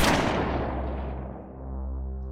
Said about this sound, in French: Un coup de feu retentit, tiré par Stoker